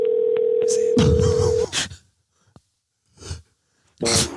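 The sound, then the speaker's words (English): A telephone dial tone holds one steady pitch for over a second and then breaks off, followed by a few short, soft bursts of noise and pauses as a call is placed. “We got his number here. Let's call him back.”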